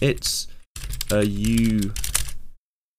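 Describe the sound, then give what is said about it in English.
Typing on a computer keyboard, a quick patter of many light key clicks that continues while a voice talks partway through, then stops abruptly. “I'll type to him. My caps lock was on. My caps lock was not on.”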